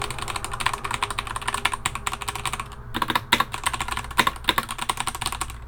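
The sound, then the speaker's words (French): Quick typing on a computer keyboard, many rapid, uneven key clicks in a steady stream with a short lull near the middle before the tapping picks back up. “Et donc là, si je m'amuse à taper des petites conneries, je sais pas, par exemple.”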